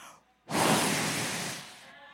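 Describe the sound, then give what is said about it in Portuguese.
A voice imitates God blowing breath into Adam's nostrils in the creation story: one long, loud breathy whoosh after a short pause, fading toward the end. “Sopra dele mesmo dentro do homem Adão.”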